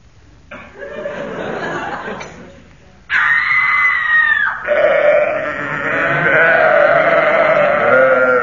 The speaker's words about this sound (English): That was a Vestal Virgin tripping over a sacrificial sheep